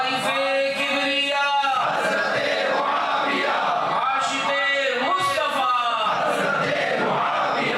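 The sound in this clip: A crowd chants religious slogans at a religious gathering: many loud voices shout together continuously, with dense, steady layers of raised, chanting sound.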